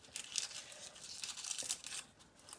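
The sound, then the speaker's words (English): Papery skins being pulled off a garlic bulb by hand make soft, dry crinkling and tearing in a few quick bursts, faint and without talk. “That's how you open up your bulb of garlic. You get rid of these skins that just come off easily.”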